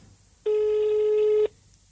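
A single telephone ringback tone on an outgoing mobile call with poor coverage: a steady, buzzy mid-pitched tone lasting about one second, heard alone over faint background hiss.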